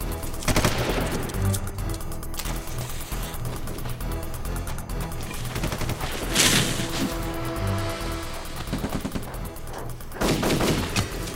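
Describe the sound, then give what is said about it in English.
Gunfire and a pipe bomb explosion in a video game: rapid, dense bursts of shots run throughout, punctuated by a few louder blasts. “Pipe bomb! Get down!”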